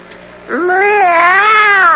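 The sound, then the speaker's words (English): A drawn-out, wavering cat meow voiced by a person. It slides up in pitch at the onset, then holds loud and steady on its own for over a second. “I am the fox, and this is my friend, the cat. Meow.”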